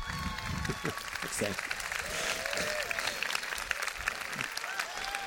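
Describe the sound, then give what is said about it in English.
Congregation applauding in church to welcome a pastor: steady, dense clapping that runs through the whole stretch, with a few raised voices rising through it. “Can you put your hands together and warmly welcome the Reverend Dr. Scott Dudley.”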